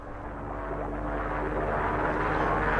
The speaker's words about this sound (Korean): 이건 분명히 비행기 소리입니다. 자, 다시 들어보십시오.